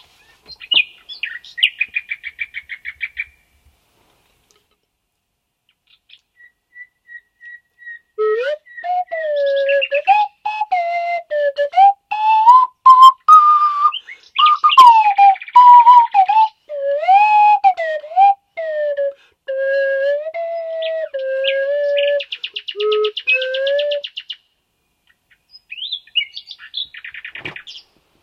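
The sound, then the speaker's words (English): A nightingale sings loudly on its own, pouring out varied whistled phrases, rapid trills and chirps in bursts separated by short pauses. “they all fail to make any difference to the nightingale, who sings for ears that aren't human at all.”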